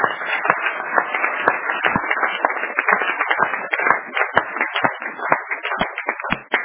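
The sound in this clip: Audience applause at a church sermon, a dense, steady patter of many hands clapping that stays fairly loud throughout without a clear build or fade.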